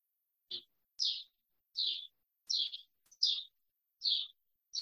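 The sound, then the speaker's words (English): A bird chirps through an open back door, giving a series of short, high, faint chirps repeated at fairly regular intervals with silence between them. “I'm thinking I hear a bird chirping. Yeah, I hear a bird chirping.”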